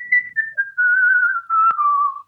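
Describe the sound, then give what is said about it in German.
Whistling through pursed lips by a single person: a clear, pure tone held across a few sustained notes, moving step by step with pitch drifting gently downward, steady and fairly loud, with no voices. “Da gibt es auch Kunstpfeifer, die eben so Lieder pfeifen. Ich tue mir halt einfach leichter, wenn ich die Lippen spitze.”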